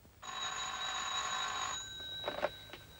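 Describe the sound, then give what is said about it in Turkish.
A telephone rings in a house: one steady, bright electronic trill lasting about one and a half seconds, faint over a quiet background, followed by a few brief soft sounds. “Ümran Hanım arıyor. Konuşacak mısınız?”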